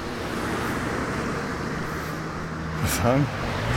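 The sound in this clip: Traffic from cars driving out of Werneck: a continuous, broad road rumble that swells slightly near the end as a vehicle passes. A brief voice is heard toward the close.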